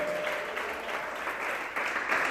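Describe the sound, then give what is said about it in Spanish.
A church audience applauding during a worship service, a dense, steady clatter of clapping hands that holds at an even level throughout, with no voices. “Denle un aplauso al Señor en esta hora.”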